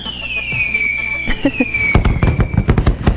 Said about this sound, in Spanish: ¡Sí! Fuegos artificiales.